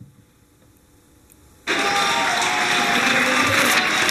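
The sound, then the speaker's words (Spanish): Applause from windows and balconies across Spain for health workers during the coronavirus outbreak. After a faint, quiet stretch it starts abruptly and holds as a loud, dense, steady clatter. “En toda España, desde las ventanas y balcones, han sonado los aplausos para agradecerles su esfuerzo.”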